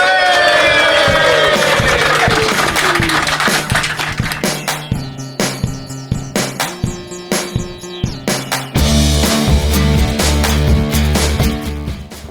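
Theme tune music plays on its own, with a steady beat of repeated drum hits under sustained tones that thin out in the middle and swell into a fuller, louder section near the end.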